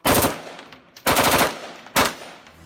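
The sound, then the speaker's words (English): Machine gun fire from enthusiasts shooting at an organized event: three loud bursts of rapid automatic shots, each with a sharp onset that tails off before the next burst. “These are machine gun enthusiasts. They can come out here and shoot these things, and companies put this on for them”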